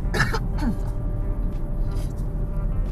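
Brief, rough throat clearing caused by sinus drainage. A short raspy burst comes at the start, then the sound settles into a quieter steady background with a faint trailing rasp.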